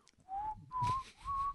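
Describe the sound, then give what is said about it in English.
A person whistles a short phrase of three clear, sustained notes, each held steadily with a slight upward lift, separated by brief gaps, with no talking. “He's a cowboy now, just whistling while I do my fucking plugs.”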